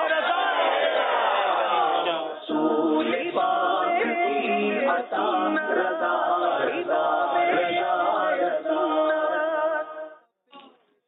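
A crowd chants a slogan in loud unison at a team quiz show. Strong, voiced shouting continues with brief dips, then cuts out near the end, leaving a short faint tail.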